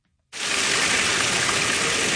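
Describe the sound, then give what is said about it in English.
Water gushing into a drained city recreation-center swimming pool as it is refilled with more than 90,000 gallons: a loud, steady roar that starts abruptly after a moment of silence and holds constant. “More than 90,000 gallons of water gushing into the Towanda Recreation Center pool this Tuesday.”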